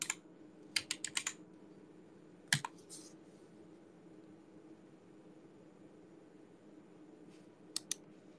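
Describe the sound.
Computer keyboard typing comes in short bursts of crisp clicks, a quick cluster at the start, another around the middle and a couple near the end, faint over a low steady hum.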